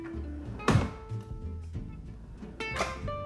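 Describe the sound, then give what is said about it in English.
A desk drawer is opened quietly, giving two soft knocking thuds a couple of seconds apart amid faint rattling and sliding noise, all fairly low in level. “The mystery sound was the sound of me opening the drawer to my desk like this.”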